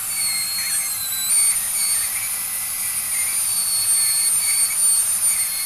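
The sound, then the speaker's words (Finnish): A foot-pedal-operated dental drill, used the way dentists are trained, gives a steady high-pitched whine over a constant, moderately loud background hum. It runs without pause and with no talking. “Niin, siis kyllä poraaminen on helppoa.”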